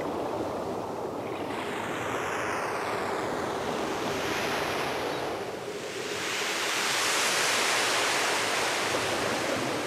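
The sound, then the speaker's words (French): Sea waves wash in a continuous, fairly loud surf rush that swells a little louder toward the end, with no voices. “De la vraie mer, hein.”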